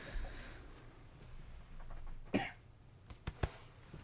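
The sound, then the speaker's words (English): A short, faint throat clearing: one rough burst, then a couple of quicker catches, rising briefly above a low background hiss. “Just had to clear my throat.”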